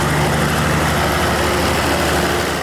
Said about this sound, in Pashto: د ګریش د برق له فابریکې په 200 متره کې د یخي یو وړه کارخانه د ډیزلي ماشینونو په برښنا چلیږي.